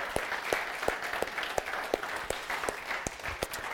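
Applause from a church audience on Labor Day weekend in Rehoboth, cheering on the church's volunteers. The clapping is fairly soft and steady, with regular, evenly spaced accents running through it.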